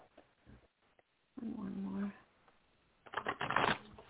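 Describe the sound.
Tarot cards being shuffled in two crisp, rustling bursts, the second louder and busier, with some talking.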